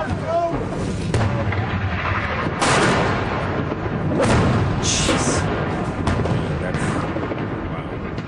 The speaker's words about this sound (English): So these seem to be mortars. And they are coming in very close.